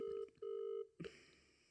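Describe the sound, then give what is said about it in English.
Two steady telephone tones sound on a call that goes unanswered and rolls over to voicemail, the second tone longer than the first, followed by a short click. “Let's listen to his voicemail. He's not answering.”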